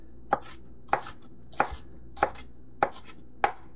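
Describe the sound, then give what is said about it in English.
Six crisp knife chops as food is coarsely minced and sliced, evenly spaced sharp strikes with brief quiet gaps between them and no voices. “I'm going to give it just a nice, good mincing. Now, it doesn't have to be exact. Some nice coarse slices,”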